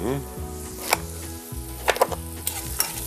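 Vegetables fry in a mix of half oil and half butter with a steady, crackling sizzle, broken by a few sharp clicks and scrapes of stirring in the pan.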